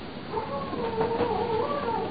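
A dog howls in one long, wavering, mid-pitched tone that holds steadily for about two seconds at moderate loudness, with no talk over it.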